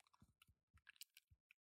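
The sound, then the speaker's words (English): A finger dabbing in blood on the ground, performed as foley: many soft, wet, squishy taps and smears in an irregular patter, faint and close, with no voices. “kind of like dabbing his finger and some of the blood on the ground. And make sure the mic can get that.”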